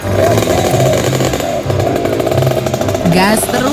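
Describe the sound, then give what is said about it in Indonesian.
A rare old vehicle's engine, one said unlikely to pass an emissions test, revs loudly with a rough, rapidly pulsing rattle, its pitch climbing near the end. “Gas terus. Lo. Ini loh kendaraan langka yang harus dilindungi keberadaannya.”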